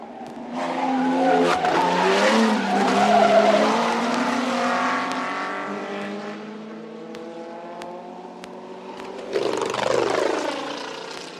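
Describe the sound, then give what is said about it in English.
Grand Prix racing cars roar past in a loud, sustained engine wail with shifting harmonic pitch, easing off before a second burst of engine noise surges near the end; tire squeal may mingle with the engine sound. “Nowadays, of course, men create their own furies in a Grand Prix motor race.”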